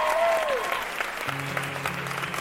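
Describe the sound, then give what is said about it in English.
Applause welcomes the Fred Hollows Junior Ambassadors on a children's news show. Steady, moderately loud clapping continues throughout, and low sustained musical tones enter partway through. “So, Squiz Kids, put your hands together and give a very warm welcome to the Fred Hollows Junior Ambassadors.”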